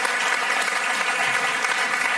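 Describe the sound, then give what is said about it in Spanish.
Audience applause for a theatre company receiving a national theatre award: dense, steady clapping that holds at an even level from start to finish, with no pauses. “Vamos a darle una aplauso a Teatro del Barrio.”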